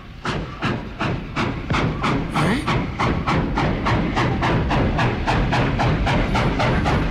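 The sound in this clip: A train running: many rapid, evenly spaced hissing bursts in a steady chugging rhythm over a continuous low rumble.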